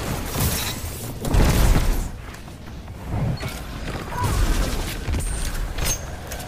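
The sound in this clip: Weapon blasts from a Golden Gun super fire during a Destiny 2 Crucible match, heavy booming bursts with mechanical clatter that swell twice before trailing into rumbling echoes, with no talk over them.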